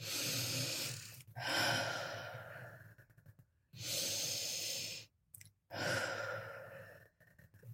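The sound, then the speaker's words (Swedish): Two deep breaths, each a long, loud, breathy inhale followed by a sighing exhale, separated by brief silent pauses, with no talking. “Och så vill jag att du tar två djupa andetag.”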